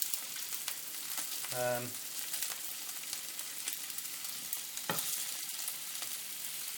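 Food sizzling as it fries on a flat-topped hob, pieces turned so they brown on all sides; a steady, even hiss runs throughout with a brief tonal sound near the start and a sharp click later.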